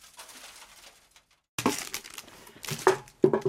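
Clattering impacts as an old crisps tube and a plastic bottle are thrown around, with a few sharp, hollow knocks and rattles after a quiet start.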